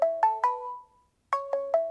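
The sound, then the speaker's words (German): A telephone ringing with an incoming call: a melodic electronic ringtone of short, bright, bouncing notes, three in quick succession, then a pause, then four more. It plays alone and clear. “Dirigent Josef Maderer unterrichtet gerade, als ihn der Anruf erreicht.”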